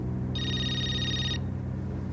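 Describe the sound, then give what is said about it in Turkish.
A mobile phone rings in a single steady, high electronic trill lasting about a second, over a low constant hum, with no talking. “Affedersiniz, benim cep telefonum çalıyor.”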